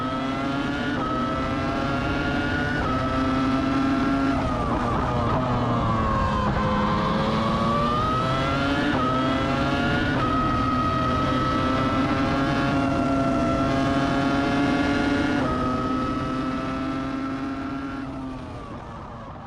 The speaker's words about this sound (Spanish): Eso que ustedes escucharon anteriormente fue el motor V10 del R25, el Renault R25 de Fernando Alonso